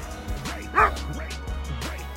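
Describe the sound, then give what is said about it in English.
A dog barks in a park, an off-leash dog approaching people. One loud, sharp bark stands out amid a few smaller yips and whines over a steady low hum. “Shouldn't he be on a leash? Excuse me. Get your dog away, man.”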